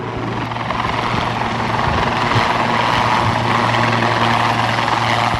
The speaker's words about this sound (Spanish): se posicionará enfrente de nosotros para que realice algún giro y puedan ver, pues, las performances, ¿no?, que tiene un helicóptero